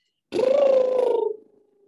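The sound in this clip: A single motorboat lip trill, done as a vocal warm-up before speaking, gives a rapid fluttering buzz at a steady pitch for about a second, then quickly fades out.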